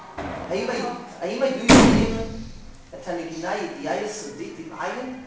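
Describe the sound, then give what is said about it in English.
A door is closed with a single sharp, heavy slam that cuts in midway while people talk before and after it. “close door, please.”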